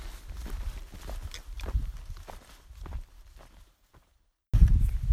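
Footsteps crunch along a mountain trail near Mount Jefferson in a steady run of soft low thuds, fading and briefly dropping out near the end before a louder burst of sound returns.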